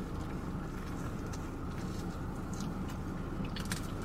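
Chewing on a thin roll loaded with grilled onions, soft steady mouth sounds with a few crisper crunches toward the end, under a constant low background hum and without talk.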